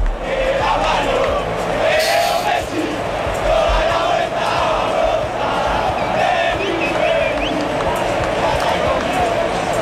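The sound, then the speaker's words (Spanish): Football players sing and cheer in a loud, dense crowd roar while celebrating and hoisting a teammate onto their shoulders, with sustained chanted tones and shouts running continuously throughout. “Están manteando ahora mismo a Leo Messi. Ahí está encima de los hombros de Enzo Fernández. Así suena.”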